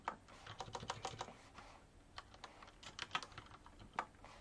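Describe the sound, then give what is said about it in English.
Quiet typing on a computer keyboard: many light, irregular keystroke clicks in quick bursts, with brief pauses between runs. “So I can type, just type four”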